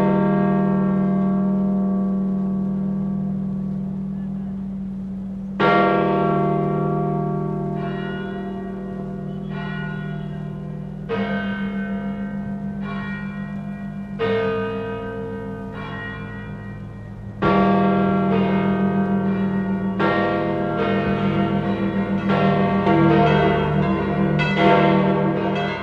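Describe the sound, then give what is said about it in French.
A church bell tuned to a low F tolls, with several heavy strikes spaced a few seconds apart, each leaving a long, humming resonance that slowly fades under the next stroke. “Questa campana fa. Sa note est le fa grave.”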